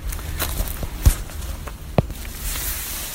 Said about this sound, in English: We're going to continue walking here a little bit and see what else we can see.